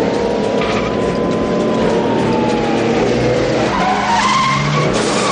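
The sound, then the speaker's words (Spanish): A car roars and its tires skid as it overtakes a truck trailer on the left during a high-speed chase. The engine and road noise stay loud and steady, with squealing tires throughout. “Nick retrae su marcha y ahora intenta llegar a la altura de la cabina adelantando por la izquierda al tráiler”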